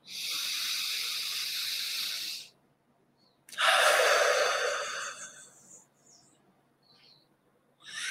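Slow, deep breaths taken during a guided meditation: two long, airy rushes of breath, each lasting a couple of seconds, separated by a short silence, with no talk over them.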